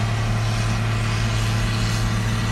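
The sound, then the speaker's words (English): Steady, loud, low mechanical drone of a big combine harvester working in a field, heard from inside a car, with an unbroken engine hum and no voices. “That noise is a wild big tractor harvesting.”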